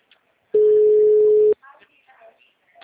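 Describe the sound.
A telephone ringback tone sounds as a call connects: one steady, mid-pitched tone lasting about a second, followed by quieter scattered sounds and faint talk.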